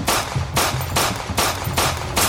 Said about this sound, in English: Sugar's gunshots did nothing to Star. They hit, yes, to the chest, but Star didn't bleed.